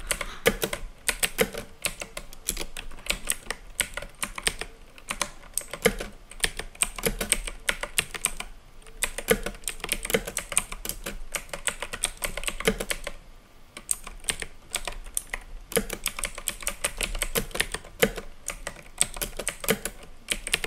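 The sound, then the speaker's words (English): Typing on a glitchy computer keyboard: a long run of many rapid clicking keystrokes with a few brief pauses, steady and moderately quiet, with no voices. “so I hope my keyboard doesn't glitch. My keyboard is a glitchy keyboard.”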